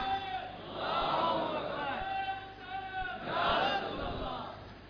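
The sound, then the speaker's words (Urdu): A loud religious slogan shouted by a devoted audience member at a sermon gathering: a sustained raised voice over crowd noise, swelling twice. “ایک عاشق نے اتنا زوردار نعرہ لگایا, یہی تقریر اگر میں اورنگی کورنگی میں کروں تو مجمع کے اندر سیلاب آ جائے.”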